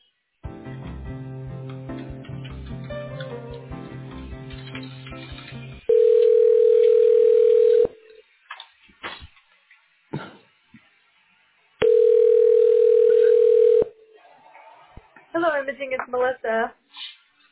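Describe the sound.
Telephone ringback tone while an office call is transferred: two long, steady, loud tones of about two seconds each, separated by near silence. Tonal music plays before the tones, and a voice answers at the end.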